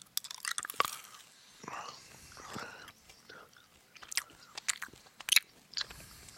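Someone bites into and chews a yumberry, producing many irregular crisp crunches and moist chewing sounds at moderate loudness, with short pauses between bursts.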